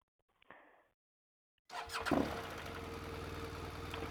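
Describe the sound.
A car engine in Andalusia cranks and catches, then settles into a steady, rumbling idle. A brief, faint noise comes a moment before the start, and the engine runs on alone without voices.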